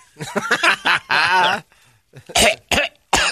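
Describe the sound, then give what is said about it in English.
Coughing after seeds were inhaled down the wrong pipe: a strained, voiced, laugh-like stretch, then several short, harsh coughing bursts separated by brief gaps. “Are you all right? I went down the wrong pipe. Hopefully that doesn't end up in a bad way. Seeds get me every time.”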